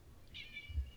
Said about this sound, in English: my cat jumped up here